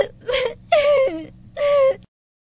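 A girl crying in three whimpering, wailing sobs, each a voiced, moaning cry of about half a second, fairly loud and close together before stopping abruptly.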